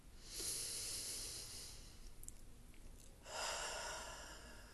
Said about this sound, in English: Focus on the sound of my breathing.